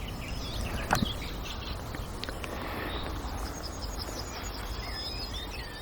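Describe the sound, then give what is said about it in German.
Soft song of a nightingale, with thin whistled phrases and scattered chirps over a steady chorus of crickets. The song is faint and sparse rather than full. “auch wenn die Nachtigall noch leicht singt, aber nicht mehr so stark wie vorhin”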